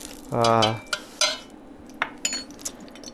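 Food goes into a metal gastronorm steam-table pan, giving a few sharp metallic clinks and light scrapes spaced apart.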